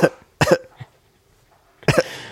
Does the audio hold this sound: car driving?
no

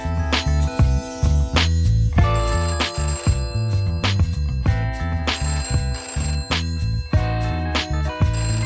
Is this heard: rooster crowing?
no

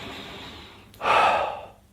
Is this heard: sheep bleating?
no

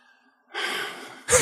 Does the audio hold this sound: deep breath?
yes

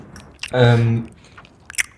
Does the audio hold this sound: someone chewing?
yes

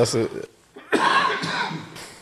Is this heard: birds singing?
no

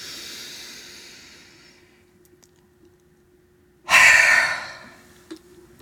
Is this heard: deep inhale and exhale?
yes

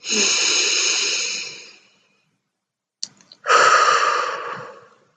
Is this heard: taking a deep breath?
yes

